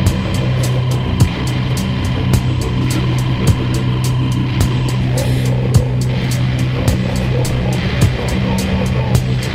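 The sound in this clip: A car rolls along on quiet low-noise tyres, producing a steady, even drone and low rumble that holds at a constant level throughout.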